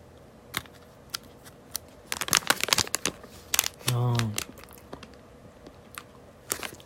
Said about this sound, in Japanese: シャリプル不思議な噛み心地グレープ味ですいただきますあプルプルしてます